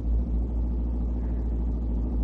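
A car driving along a road, a steady low engine rumble that stays even and unbroken throughout, with no talk.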